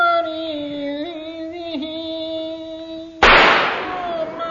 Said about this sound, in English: He had to go. I shot him for nothing, you know.